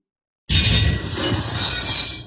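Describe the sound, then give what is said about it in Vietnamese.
A black iron sword shatters into fragments: a sudden loud crash breaks from silence, followed by a sustained, bright, glassy crackle of scattering shards, with no voices. “Quả nhiên đúng như dự liệu, truyền đến tiếng sắt thép vỡ vụn. Thanh thiết kiếm màu đen vỡ nát tại đương trường, biến thành những cái mảnh vụn.”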